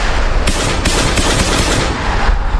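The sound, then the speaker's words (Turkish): Gunfire sprayed into a crowd of young people gathered for a send-off celebration: a dense, harsh wash of loud, rapid shots with a couple of sharper cracks standing out early on. “Tartıştığı grubun yanına kısa süre sonra silahla geri dönen 17 yaşındaki bir şüpheli kalabalığa kurşun yağdırdı.”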